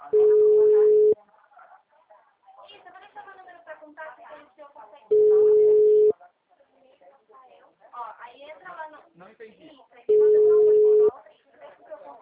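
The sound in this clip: A telephone busy tone sounds after a dropped call. It is three steady, one-second beeps spaced several seconds apart, with a person talking between them.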